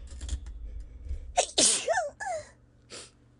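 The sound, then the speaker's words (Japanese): A single loud, forceful sneeze bursts out on its own, with a couple of quieter breathy sounds trailing after it. “失礼しました。くしゃみしちゃった。恥ずかしい。”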